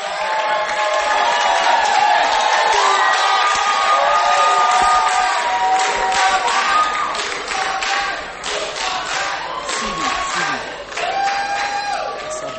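Concert crowd loudly clapping, cheering and whooping to welcome the gospel duo Two for Christ. The roar stays dense and strong for several seconds, then eases slightly, with scattered shouts throughout.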